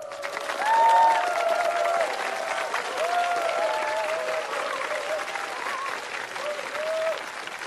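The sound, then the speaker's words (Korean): An audience applauds a newly introduced young singer at a live performance, dense steady clapping throughout, with cheers and voices rising above it near the start and again later. “큰 박수 부탁드릴게요.”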